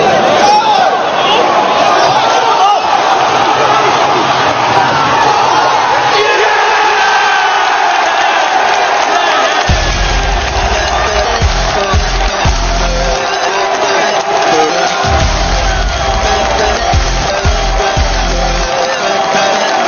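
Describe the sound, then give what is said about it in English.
A roaring football crowd celebrating a goal against Norwich, blended with an electronic dance track; the loud, constant crowd roar is joined midway by a heavy, pulsing bass beat that continues to the end. “what he's done is he's mixed that tune with some goal noise”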